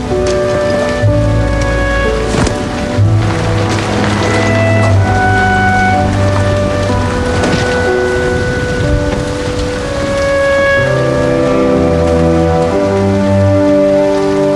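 Heavy rain pours down around a porch in a steady, dense hiss that holds evenly throughout, beneath sustained musical tones.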